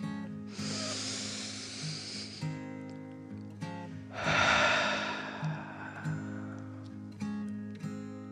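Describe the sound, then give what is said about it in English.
A person takes a deep breath in and out: two long, airy breaths a couple of seconds apart, the second fuller and louder, over soft sustained background music. “He took another deep breath in and out.”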